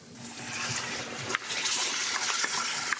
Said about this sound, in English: Add the tomatoes and the juice and bring to a boil, stirring often.